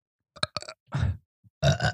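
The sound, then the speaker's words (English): Human burps: a few short, low, guttural belches of uneven length with brief gaps between them, ending in a longer, rougher one. “Let's all three of us then burp at the same time.”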